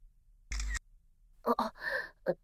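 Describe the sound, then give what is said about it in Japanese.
A single camera shutter click, a short, loud, sharp snap, taken during an identity check of a 19-year-old woman. “ちょ、何？今のカメラですよね。何勝手に。証拠写真？”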